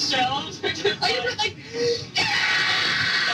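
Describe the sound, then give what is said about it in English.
A young girl screams on a played tape recording. Excited voices come first, then a loud, sustained cry fills the final second and a half. “That's me screaming.”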